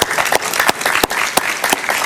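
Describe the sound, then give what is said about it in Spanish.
A short, loud burst of studio audience applause welcomes a Venezuelan sociologist guest onto a talk programme. Dense clapping fills the whole moment. “Un aplauso para él, por favor.”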